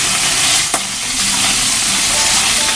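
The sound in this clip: Bacon sizzling in a frying pan after being flipped, a loud, steady crackling hiss with one brief sharp click early on.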